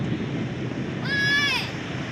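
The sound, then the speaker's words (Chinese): Rushing mountain floodwater as a radio drama sound effect: a steady, roaring wash of noise throughout, with a brief wavering whistle-like tone rising over it midway. “哎呀，山水下来了。哎，小兰，快往坡上跑，上老山头。”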